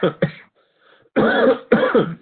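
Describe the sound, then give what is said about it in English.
Coughing after choking on water: two quick, short coughs, a brief pause, then two longer, harsher coughing bursts. “Uh-oh. Quarantine me. Sorry, I just choked on some water.”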